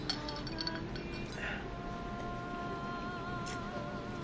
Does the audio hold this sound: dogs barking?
no